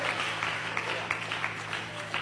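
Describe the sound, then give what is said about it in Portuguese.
Applause from a church audience, a steady dense patter of clapping with periodic bursts, heard alongside a voice speaking over it. “Passe um aqui aplauso adiante. Ao Senhor.”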